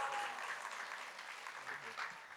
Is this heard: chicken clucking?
no